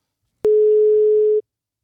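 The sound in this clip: Telephone call tone, a single steady mid-pitched beep lasting about a second, starting with a sharp click and standing alone in silence.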